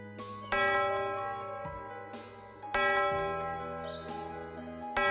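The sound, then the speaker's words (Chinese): A bell rings in a forest with three resonant strokes spaced about two seconds apart. Each stroke has a bright onset that fades into a long, sustained ringing tail. “回忆森林里响起了钟声”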